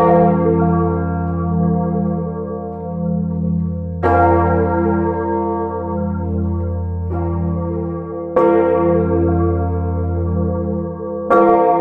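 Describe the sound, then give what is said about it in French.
Cathedral belfry church bell ringing: loud clanging strokes at slow, even intervals, each a bright metallic strike that hums on in a long, rich sustain and overlaps the next, with no voices. “Reconnaître une cloche,”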